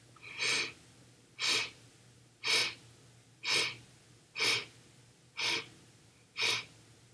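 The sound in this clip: Breathing during a guided breathing exercise, heard as seven evenly spaced, airy breaths about a second apart, soft and hissy with quiet gaps between them.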